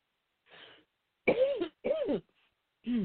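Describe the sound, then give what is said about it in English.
Coughing after a breath went down the wrong pipe: four throaty coughs, the first faint and short, then two loud harsh ones close together and a final one after a brief pause, with no talk between them. “Sorry, I took a breath and you know, went down the wrong pipe here.”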